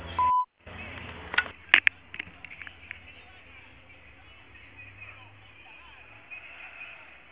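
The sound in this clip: A voicemail beep signals the start of message recording: one short, steady, loud electronic tone near the beginning, followed by a voice speaking over faint background noise.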